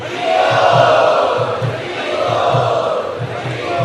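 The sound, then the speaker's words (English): A crowd at an ISKCON Chowpatty gathering chants loudly in welcome. The massed voices hold a steady, dense roar with regular rhythmic pulses running underneath. “Let us welcome him by loudly chanting.”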